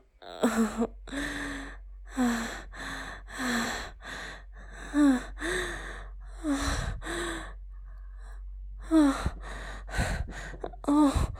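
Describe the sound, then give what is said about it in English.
Heavy breathing and moaning from a person feeling lightheaded and nearing climax: a run of many breathy gasps and sighs alternating with voiced moans that waver in pitch. No words are spoken. “just moaning, breathing heavily.”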